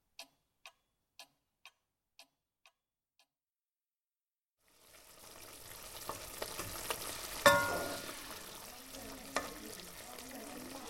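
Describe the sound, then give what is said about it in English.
Dinner sizzles on a six-ring cooker: a steady crackling hiss of frying with scattered pops rises after several seconds of a handful of regular, fading clock ticks in near silence. “I was just checking the dinner on my state-of-the-art six-ring cooker.”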